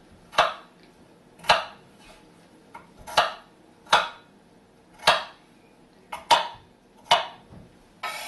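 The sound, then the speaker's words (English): A knife chops potatoes into small chunks on a board, landing as sharp, crisp knocks in a slow, fairly even series of about one per second, with no talk. “I've chopped up some potatoes here, so I'm just going to finish that off. Just want to make them chunky, small and chunky.”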